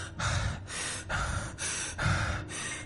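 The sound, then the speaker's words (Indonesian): A woman pants heavily after running hard into a room: a steady run of quick, harsh breaths in and out, each one loud and breathy, with no talking. “Nafas Diana memburu saat dirinya berhasil masuk ke kamar.”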